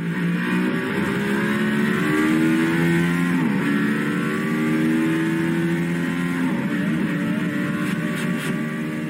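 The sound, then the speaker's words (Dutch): Loud, continuous engine roar of a Mercedes-AMG One hypercar with Formula 1 technology driving at speed. The rich, layered tone climbs steadily in pitch, dips briefly once midway, and plays alone with no voices. “Ja, de Mercedes AMG One. De hypercar van Mercedes-Benz. Een auto met Formule 1 technologie.”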